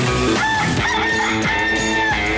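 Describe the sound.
A rooster crows in a loud, sustained call that stays strong and dense throughout, with no talking.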